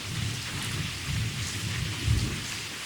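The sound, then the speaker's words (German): Low rolling thunder rumbles beneath a steady hiss of falling rain, the rumble swelling louder briefly toward the end. “Und als dann dieses Donnergrollen mich aus dem Bett gerissen hat, dachte ich, das ist es.”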